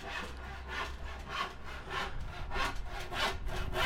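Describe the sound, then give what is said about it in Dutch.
Sawing on a balcony while building a display cabinet, many rhythmic back-and-forth strokes of a saw through wood, rasping and fairly soft, steady and alone. “Er wordt gezaagd hier op een balkon.”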